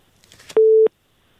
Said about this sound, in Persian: تماسشان قطع شد. یک تماس دیگه میگیریم.